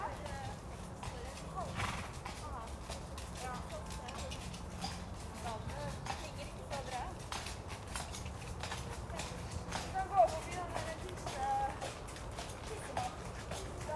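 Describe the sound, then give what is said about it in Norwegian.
Horses from a riding school pass with a steady clip-clop of hooves at a walking pace. The hoofbeats stay fairly faint beneath people talking throughout. “nå rir Ekeberg rideskole forbi”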